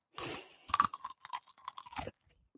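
A crunchy banana cue, slightly hard on the outside after sitting for about 25 minutes, is bitten and chewed. A few crisp crunches are followed by softer, irregular chewing, fairly faint and alone.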